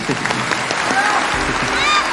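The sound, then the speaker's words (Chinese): A studio audience applauds on a quiz competition show. The clapping is brisk and continuous, with a host speaking over it. “我们把掌声送给王东丽，送给王玉涵。”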